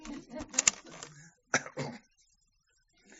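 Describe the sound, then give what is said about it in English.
Cassette tape being turned over gives a cluster of plastic clicks and rattles, then two firmer clunks, followed by near silence. “Let me just turn this tape over, please. We don't want them to miss anything.”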